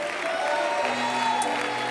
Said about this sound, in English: Let's give the Lord Jesus a great big hand clap of praise.